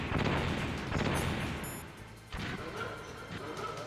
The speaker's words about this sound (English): Okay, now he starts off with, like, the, what do you call it? The turrets.